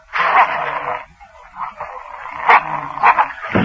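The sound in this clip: Dogs bark in several uneven bursts, some long and some short and sharp. A high yelp stands out near the middle, set among the commotion of a chase and fight.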